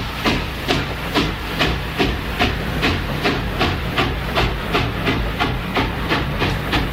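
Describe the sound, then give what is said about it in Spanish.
Rhythmic train chugging opens a 1969 rhythm and blues song about a Memphis train. Steady hissing bursts of steam-like noise repeat at a brisk, even pace over a low rumble, with no voices. “El tema empieza con un tren, es el tren de Memphis.”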